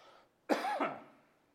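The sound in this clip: A throat clear with a cough from a tickle in the throat: one rasping, fairly loud burst made of two quick pushes, then quiet.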